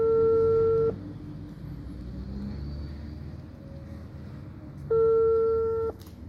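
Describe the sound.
Telephone ringback tone while placing a call: two long, steady electronic beeps about four seconds apart, each lasting roughly a second, over a low continuous rumble.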